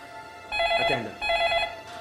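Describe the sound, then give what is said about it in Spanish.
A telephone rings twice, each bright electronic bell burst lasting about half a second with a short gap between. The rings are fairly faint, with no talk. “Luego de varias horas de tensa espera, la familia Dinis recibe otra llamada.”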